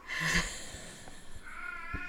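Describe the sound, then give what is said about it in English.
An old cat screaming: a short, strained cry near the start, then a longer wavering, tonal yowl toward the end, both fairly faint and with no talk. “That's our cat screaming. Our senior, one of our oldest cat.”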